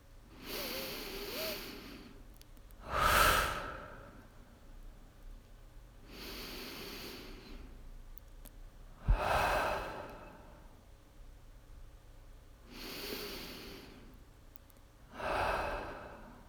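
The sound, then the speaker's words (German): Deep breathing in and out during a guided breathing exercise. About six slow, airy breaths rise and fall in a steady rhythm, soft and unhurried. “Atme wieder ein paar Mal tief ein und aus.”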